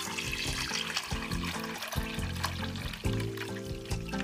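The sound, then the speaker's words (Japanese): Water pours and splashes steadily as rinsing water is drained off oysters, held back by hand or with a strainer, while making a miso soup of oysters, shungiku and shimeji. “そしたらざるなどを使ってもいいですし手で牡蠣を押さえてもいいので水をまず1回捨てます”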